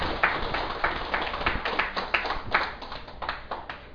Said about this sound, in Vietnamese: Xin quý vị vỗ cho một tràng tay.